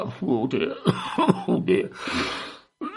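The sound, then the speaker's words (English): A person with a cough coughs and clears their throat in a run of rough, voiced bursts, ending in a longer breathy, noisy rasp before a short silence. “I've got a bit of a cough on.”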